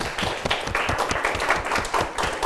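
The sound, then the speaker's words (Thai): Students in a Thai science class clap for a classmate: many sharp, fairly loud claps in a busy, slightly uneven patter that carries on throughout. “ปรบมือให้กับเพื่อนด้วยครับ”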